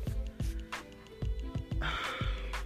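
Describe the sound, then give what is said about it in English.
Someone breathing hard: faint, heavy gasping breaths and a few snorting inhales come in short, uneven bursts. “Why you gotta breathe hard?”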